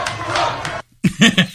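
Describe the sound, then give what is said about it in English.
A crowd chants and cheers in a street in Harlem, with a sustained roar of many voices that stops abruptly. After a short pause, a few loud shouted chant syllables follow in quick rhythm. “Obviously chanting 4 more years. We've got chants behind us as well. Cheers all around here in Harlem.”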